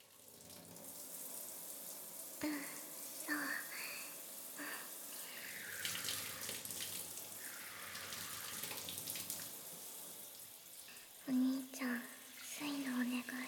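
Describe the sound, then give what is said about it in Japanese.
Hot water running from a handheld shower makes a faint, steady hiss throughout, with a soft voice speaking and whispering over it at times. “シャワーを手に持たせてほしいって。そっか、最初はお湯で汗を流さないとだよね。”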